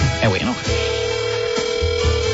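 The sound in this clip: Telephone ringback tone on an outgoing call: a steady, unbroken mid-pitched tone sets in after a brief voice and continues to the end.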